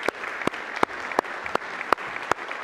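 A church audience applauds to welcome a guest. Sharp, evenly spaced claps stand out over a continuous bed of softer clapping.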